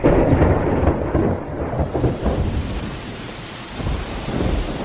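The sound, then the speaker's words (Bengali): Heavy downpour pours over hillside trees as thunder rumbles, a loud, dense, continuous roar of rain with deep swells of thunder rolling through it. “সেদিন সন্ধ্যের পর থেকে মুষলধারে বৃষ্টি নামল। গাছপালার আর্তনাদ ও মেঘের গর্জনের সঙ্গে সঙ্গে পাহাড়ের উপর থেকে হুড় হুড় করে বৃষ্টিধারা নেমে আসার শব্দ”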